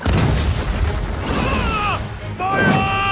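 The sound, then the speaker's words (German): An old tower collapses and tears down a power line in a dramatized scene: a loud, rumbling crash with heavy low thuds, followed by groaning, falling tonal whines and a final burst of debris noise. “Plötzlich stürzt der alte Turm ein, reißt eine Stromleitung mit und fängt Feuer.”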